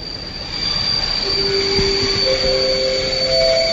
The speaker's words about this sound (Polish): W pierwszej godzinie audycji przejedziemy się też pociągiem. Najlepszym podobno na świecie.